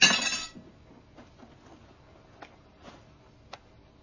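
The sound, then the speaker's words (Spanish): Teaspoon cracking the shell of a hard-boiled egg during a meal, heard as a few faint, sharp clicks and taps spaced apart in near quiet. “rompe con una cucharilla la cáscara de un huevo duro”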